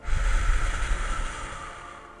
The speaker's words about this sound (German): Atme jetzt einmal tief ein und dann feste wieder aus.